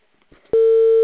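A telephone tone on an unanswered call: after a few faint low noises, a single loud, steady electronic tone sets in and holds unbroken to the end.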